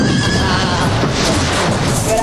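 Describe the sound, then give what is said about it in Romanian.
A horse neighing, a general's horse in a Napoleonic-era scene, its whinny rising over a loud, dense wash of noise that fills the whole clip. “Ăsta-i cal de general? Un cal care face 10 galbeni ca nimica.”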